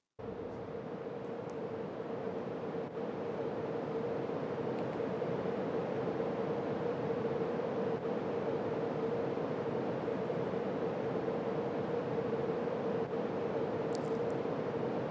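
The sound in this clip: Unprocessed noise from a tone generator: a steady, even hiss with a faint sustained tone running through it, constant from start to finish and unaccompanied by voices.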